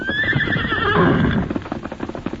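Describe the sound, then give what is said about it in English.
A horse whinnies loudly for about a second as its pitch sinks slightly, then hooves clip-clop in an uneven rhythm on their own. “We saddle up. Get ready to ride. Steady, Silver. Easy. Easy, big fella.”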